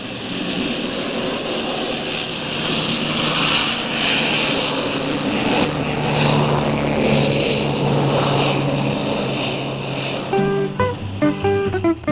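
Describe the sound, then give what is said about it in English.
A propeller plane on skis takes off from ice, its engine and airscrew giving a steady, heavy droning roar that holds for about ten seconds before music cuts in at the end. “the last plane pulls its skis free from the clutching ice and lumbers up into the cold air.”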